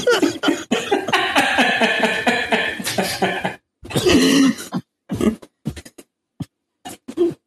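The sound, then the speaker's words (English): A man coughing hard in a harsh fit, with many rough, ragged bursts in quick runs broken by short pauses and a few sharp final hacks. “Oh, I'm laughing at some dude coughing his lungs out.”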